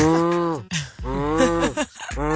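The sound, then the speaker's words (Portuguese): A voice imitates the strong buzzing of a phone set to vibrate, likening it to a cow mooing. A few long, low, droning moo sounds come in succession, separated by short breaths. “No entanto, quando não é ele, eu tenho telefone em vibração, o que é que acontece? Aquilo nem é preciso ter ação. Porque eu tenho aquela vibração forte que parece uma vaca.”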